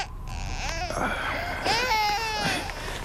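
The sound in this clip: A baby cries in a few drawn-out, wavering wails with a strained, whimpering edge, fairly loud and steady with no talk over it.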